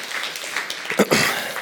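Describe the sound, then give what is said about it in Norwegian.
Applause from a church audience for the worship leader and music team: steady, dense clapping from many hands at moderate loudness, running continuously through the short clip. “Vi kan godt gi deg en applaus hvis du setter pris på å bli ledet på en god måte.”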